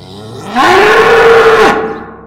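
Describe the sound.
A raging wild bull bellows in one loud, low, drawn-out moo lasting about a second, which rises sharply in volume at the start and then fades away.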